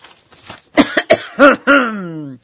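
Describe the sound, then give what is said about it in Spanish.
A narrator's voice acts out a doctor clearing his throat: a few short, rasping coughs, then a drawn-out voiced hum that slides downward in pitch before stopping. “Después se aclaró la garganta y dijo:”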